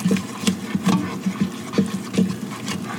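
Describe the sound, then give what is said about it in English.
Vigorous stirring as a full cup of flour is worked into choux pastry dough, a steady run of many soft, quick thumps and scrapes in an uneven rhythm, with no talking. “I'm going to add all of the 1 cup of flour at once here and stir vigorously for about 1 minute.”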